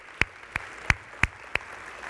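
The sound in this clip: Applause in welcome comes as five sharp, evenly spaced claps in a slow steady rhythm, crisp and distinct against a quiet background with no voices.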